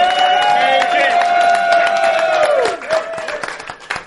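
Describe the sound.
A live audience at a New York show cheers and applauds, a sustained, loud, tonal whoop over clapping that breaks off partway through into scattered claps and shouts.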